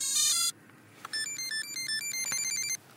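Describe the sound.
A quadcopter plays its electronic startup melody after its battery is connected: a bright held tone first, then after a short pause a quick tune of short, high-pitched beeps, fairly quiet throughout.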